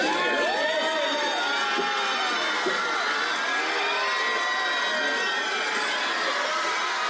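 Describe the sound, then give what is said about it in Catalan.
A crowd outside the Hotel Maria Cristina in San Sebastián cheers Brad Pitt's arrival with continuous loud screaming, shrieks and whoops. The excited, high-pitched voices overlap without pause for about seven seconds. “Així han rebut a Brad Pitt davant de l'hotel Maria Cristina, on ha arribat abans del que estava previst inicialment.”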